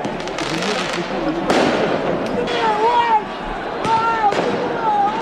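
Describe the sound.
Firecrackers go off during riots in France after the Champions League final: several sharp, loud bangs and crackling bursts over a constant roar of crowd voices, with thin whistling tones between the blasts.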